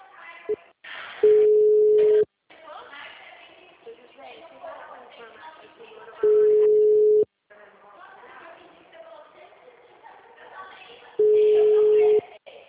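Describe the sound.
A telephone busy signal sounds after a dropped phone call: three long, steady low tones, each about a second, spaced evenly apart, with muffled talk and noise filling the gaps between them.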